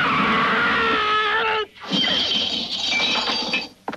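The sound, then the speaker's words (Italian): A woman screams in a long, high, piercing cry of about a second and a half, then a brief pause and a burst of noisy, crash-like sound. “Chi ha urlato? Oh, non è niente, signor McClary. Non sarà niente per te, ma per me un urlo è un urlo. È stata una mia amica”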